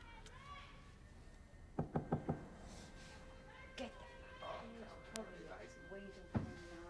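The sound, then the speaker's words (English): Four quick knocks on an apartment door in a fast run, followed by scattered softer thumps, all at low level beneath a noisy background with voices. “Now he's standing outside an apartment door with the number 127 readying his gun. He knocks.”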